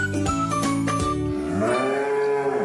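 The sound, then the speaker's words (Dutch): A cow moos loudly, calling to the others with one long, low, strongly voiced call that fills the whole clip. A few sharp clicks sound near the start. “dit is een koe die zegt, ik roep de anderen.”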